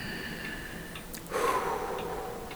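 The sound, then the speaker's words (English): A person takes a single deep breath, a soft, breathy rush of air lasting about a second, quiet and alone. “Oh, whew, okay, take three. Deep breath.”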